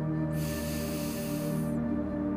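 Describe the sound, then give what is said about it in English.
A person takes one slow, deep breath in. The airy, breathy inhale lasts a little over a second and sits over a steady, soft musical backdrop. “Let's take a deep breath.”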